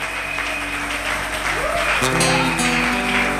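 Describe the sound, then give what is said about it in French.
A church audience applauds and cheers for the Lord in dense, steady clapping, mixed with voices and sustained musical tones. “Alléluia. Est-ce qu'on peut acclamer pour le Seigneur? Oh, gloire au Seigneur.”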